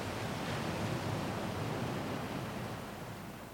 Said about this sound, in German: Über mir schwarze Wolken, die ein Orkan dahin treibt. Gelbe Risse im Himmel. Gischt auf den alten Steinen.